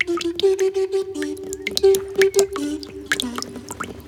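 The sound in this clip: Tears dripping into a small puddle: a quick series of plinking, watery drops with a pitched, musical quality, steady and fairly clear throughout.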